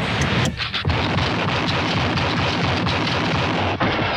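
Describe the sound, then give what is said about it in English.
Rifle fire from the 1960s Western TV series The Rifleman, a loud, dense roar of explosive bursts that fills the whole clip, with almost no quiet gaps. “Chuck Conn is pretty good with that rifle, isn't he? He always hits what he aims at.”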